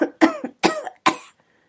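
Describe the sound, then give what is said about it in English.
Harsh coughing from someone said to have tuberculosis: a quick run of several strained bursts in close succession, the last one trailing off into silence. “I do think I'm dying, sir. I got the tuberculoidal fever. I cough blood into me hands.”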